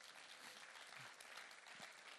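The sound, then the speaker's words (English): Applause from a pastors and leaders conference audience for the hosting team. The clapping is very faint but dense and even, a soft continuous patter with no pauses. “Let's give our team a massive round of applause.”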